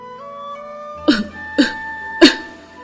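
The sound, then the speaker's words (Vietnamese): Three dry coughs from a man choking on cigarette smoke while nursing an unhealed chest wound. The short, evenly spaced bursts rise over a steady tonal musical background. “Hình như là bị sặc thuốc, Tả Trấn ho khan vài tiếng”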